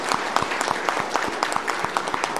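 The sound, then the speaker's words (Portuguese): Audience applause at a trade union gathering: dense hand clapping with a regular, pulsing beat that stays steady and fairly loud throughout. “Então vamos dar uma salva de palmas bem forte”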